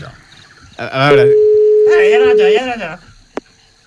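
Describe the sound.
While calling a 902 number, a steady single-pitch telephone tone runs for about a second and a half beneath people talking, followed by a short sharp click.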